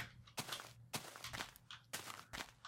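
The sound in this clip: Video game footsteps crossing Minecraft beta 1.7.3 highlands terrain: a few faint, soft crunching steps in an uneven walking rhythm, heard alone.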